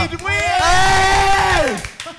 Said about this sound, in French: Allez les filles, applaudissez là. Allez, avec plus d'entrain là.